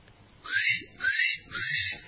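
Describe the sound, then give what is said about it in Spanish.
Three short whistles from a person imitating a little bird, each a high chirping note that sweeps upward, evenly spaced and clear over a quiet background. “Tres silbidos también.”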